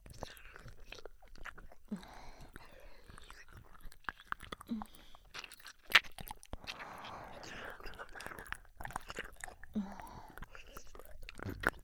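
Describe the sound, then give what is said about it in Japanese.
Close, quiet ear licking: many soft wet smacks, slurps and clicks in an irregular rhythm, with faint breathy sounds between them. “それじゃあ私は耳を舐めますかね。”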